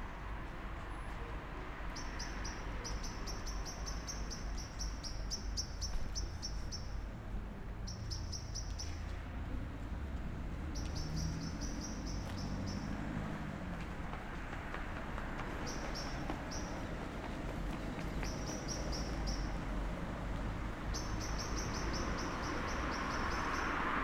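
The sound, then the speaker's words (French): Birds calling at nightfall, short high chirps repeating in irregular clusters over a steady low rumbling background that runs throughout. “Même des oiseaux. À nuit tombée.”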